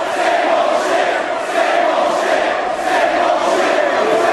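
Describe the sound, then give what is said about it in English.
Hostile wrestling arena crowd at an ECW One Night Stand event, a loud, continuous roar of many voices with shouting that swells and eases slightly but never drops out. “He's handling this hostile crowd as well as Avi did.”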